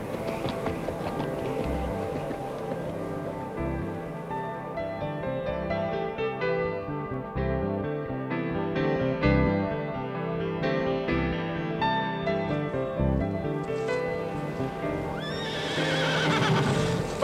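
A horse gallops off as its rider sets out for a dike, with steady, continuous hoofbeats and a whinny over a long, sustained stretch.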